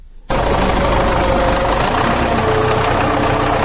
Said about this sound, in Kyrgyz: Тракторду жарай деген камдап атабызчу.